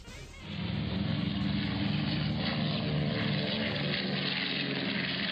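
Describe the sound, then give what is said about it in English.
Engines of a North American B-25 World War II bomber, a deep, steady propeller drone that swells up in the first half second and then holds loud and even, with a dense rumbling roar and a throbbing low pulse. “That's the sound of a North American B-25, a World War II bomber.”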